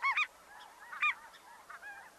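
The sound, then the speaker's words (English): Ross's goose calls, a higher-pitched voice than a snow goose's: several short, nasal, bright honks in quick clusters, with quieter overlapping calls between the louder ones. “the Ross's goose evolved to be about two-thirds the size of a snow goose, with a noticeably shorter neck, smaller bill, and higher-pitched voice, too.”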